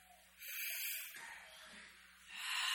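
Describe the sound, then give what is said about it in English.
Deep belly breathing during a calming exercise: a few slow, airy breaths, each a soft, broad hiss that rises and fades, with no voices. “And so let's all take deep breaths together.”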